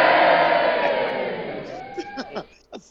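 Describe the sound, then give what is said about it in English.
An audience cheers and whoops loudly for an intern at a live show. The roar fades steadily over the first couple of seconds, and then a few brief voices are heard. “I'm glad they cheered for that.”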